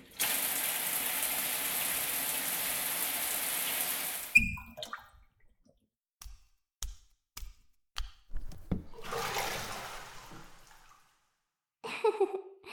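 Water runs to rinse off before a bath, a steady broad rush lasting about four seconds before it stops. Scattered knocks and short splashy bursts follow, with quiet gaps between them.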